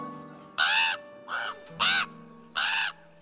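Raven calling with four harsh, loud caws spaced unevenly over a few seconds against a quiet background.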